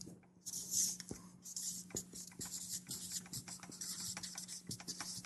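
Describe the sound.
A marker drawing on a board makes many short, dry squeaks and scratches in an uneven rhythm. The strokes are faint, with a low steady hum beneath.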